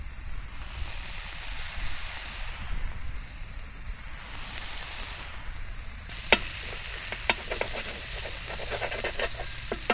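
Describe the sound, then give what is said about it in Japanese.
Meat fries in oil in a pan for yakisoba, giving a steady, fairly quiet sizzling hiss. In the second half, a few sharp taps and scrapes of a utensil stirring the meat join the sizzle. “さあ、これから焼きそばを作りましょう。油を引いて、お肉を、”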